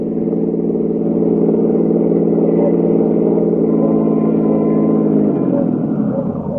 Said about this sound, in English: In company with Lieutenant King, I drove over to 1132nd Avenue, Jerry's Laundrette, from where the search would commence.